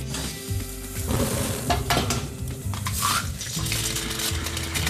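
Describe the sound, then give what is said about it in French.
Food sizzling and grilling with pots simmering, a continuous bright hiss of frying mixed with stirring and clatter of cookware, over a low steady hum. “Oula, ça fume, ça grille, ça mijote.”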